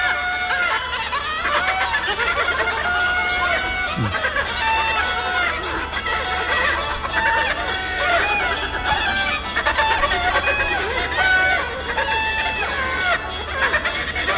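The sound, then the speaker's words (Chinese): Performers in a folk music show imitate a hen cackling after laying an egg. Bright clucking phrases repeat over a steady rhythmic beat, with crowd noise running underneath throughout. “你听不上这鸡下蛋吗？ 闹笑话了。 咕咕哒， 咕咕哒，咕咕哒。”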